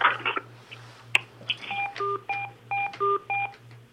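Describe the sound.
Six telephone keypad touch-tones in a quick, uneven sequence as a number is dialed into a conference line, each a short steady dual-pitch beep. A few brief clicks come before them, with a low pulsing hum underneath.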